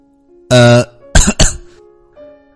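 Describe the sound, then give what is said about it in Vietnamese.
Dry coughing: a voiced throat-clearing grunt followed by two quick, harsh coughs, loud and alone, then a faint trailing breath. “Đồng Minh Tồn ho khan mấy tiếng, che giấu cảm xúc của mình.”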